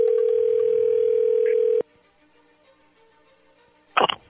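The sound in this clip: A telephone dial tone sounds while a call is being placed: a loud, steady hum lasting under two seconds that cuts off abruptly, followed by quiet line hiss and a short burst of noise near the end.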